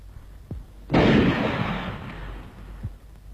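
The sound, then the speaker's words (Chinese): A single loud gunshot blast from a radio drama scene where scouts open fire on a small boat. The sharp burst is followed by a long, rumbling decay, with a few faint clicks before and after it. “开枪。”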